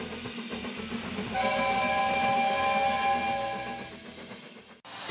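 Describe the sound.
A train rolls along with a steady low rumble, and a long steam whistle blast sounds over it through the middle, loud and sustained before fading off.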